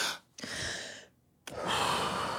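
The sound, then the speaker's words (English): A person takes two deep, audible breaths, each a soft, airy rush lasting about half a second to a second, separated by a short quiet pause. The second breath is slightly louder and longer. “Deep breaths.”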